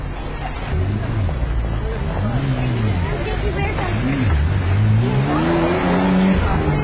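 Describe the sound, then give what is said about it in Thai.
Motorcycle taxis speed through a narrow lane as a steady engine roar that lasts the whole clip, under a person talking. “รถมอเตอร์ไซค์รับจ้างหลายคันวิ่งเบียดฉันไปอย่างรวดเร็วจนแทบจะเฉี่ยวตัวฉัน”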